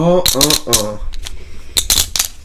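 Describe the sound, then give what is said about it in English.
Poker chips used as gem tokens in a board game clack and click together in several sharp, quick bursts, with a voice talking over the first second. “the gem tokens themselves are poker chips. Oh, here we go, ASMR.”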